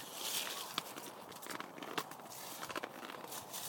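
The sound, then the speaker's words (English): Footsteps crunch and crackle through fallen leaves on the ground outdoors, a few uneven, brittle rustling steps at moderate loudness with no talking. “You can hear the leaves on the floor.”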